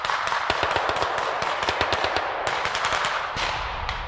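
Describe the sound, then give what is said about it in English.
Rapid gunfire from armed men leaving a vehicle and shooting at a rapid reaction force during a military exercise in Lithuania: many sharp, loud cracks in dense, continuous bursts with no pauses. “And now there are some armed men now coming out of the vehicle and firing towards the rapid reaction force.”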